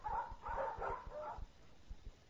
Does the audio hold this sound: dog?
yes